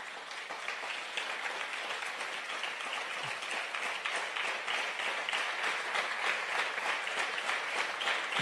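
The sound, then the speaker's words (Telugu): An audience claps at the close of a spiritual discourse on the Bhagavatam. The applause is steady and continuous from many hands, moderately quiet and unbroken across the whole stretch. “నాకు అనుమానం ఏమిటంటే, రేపు ఉదయం అంటే దిక్కుమాలాడు ఆపేశాడు అని చప్పట్లు కొడుతున్నారా, లేక రేపు ఉదయం కలుసుకోవడానికి ఆనందంతో కొడతారు? ఇది ఎందుకు కొట్టినా కొట్టచ్చు, కానీ చప్పట్లు కొట్టారు మొత్తం”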